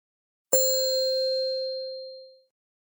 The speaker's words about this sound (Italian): Ma la campanella suona? Sì, ha suonato. Ha suonato? Ma non è una campanella, è una musica, che cos'è?